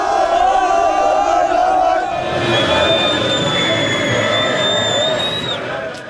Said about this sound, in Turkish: Taraftarlar meşalelerle ve formalarıyla Bağdat Caddesi'ni karnaval alanına çevirdi. Lazio Zaferi Sarı Lacivert'te taraftarı sokağa döktü. İşte görüyorsunuz şu an Bağdat Caddesi'nde büyük bir coşku var.